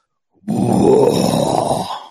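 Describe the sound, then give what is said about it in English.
A human voice imitates the breathing of something outside a tent with one long, rough, breathy exhale. The exhale is loud and steady and fades at the end, with no talking. “And I felt the breath of whatever was on the outside of the tent on the side of my face.”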